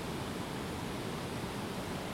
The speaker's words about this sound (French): L'eau qu'on entend, bah, c'est une rivière, hein, comme d'habitude.